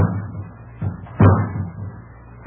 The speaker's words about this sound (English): Mary, someone's putting a ladder against the side of the house. They're going to climb in one of the windows.